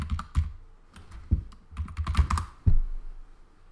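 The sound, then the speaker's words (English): Fingers type on a computer keyboard while looking up a web page, loud sharp clacks in irregular bursts, with a dense cluster in the middle and a final hard keystroke. “So I don't type on camera because it's very loud actually when you're listening to it. Let's get a Wikipedia page.”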